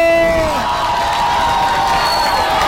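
Crowd cheering and clapping for a man being introduced, a loud sustained wash of shouts and whoops that continues evenly for the whole stretch.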